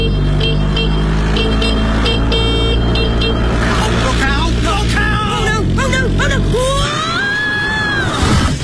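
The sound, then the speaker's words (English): A moped crash in road traffic: a steady engine and traffic drone with horn-like tones, then squealing, sweeping screech sounds as the low engine rumble cuts out, ending with a short, louder burst. “Oh, no. Are you all right? What's happened? Is she okay? She's fallen off her moped.”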